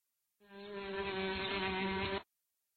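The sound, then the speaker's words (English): A steady insect buzz, offered as bees buzzing, holds a constant droning pitch with a rich harmonic hum for nearly two seconds and then cuts off abruptly, with no other sound. “Bees buzz.”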